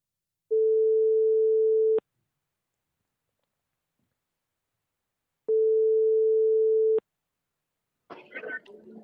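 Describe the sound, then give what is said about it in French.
Two long, steady ringback tones sound on a telephone line as a call to a contest winner goes through. The tones are separated by a few seconds of silence, and a voice answers at the end. “donc on va essayer de l'appeler. J'espère qu'il va décrocher tout de suite.”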